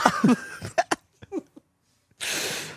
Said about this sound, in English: Stop cutting to me when I'm coughing, dude.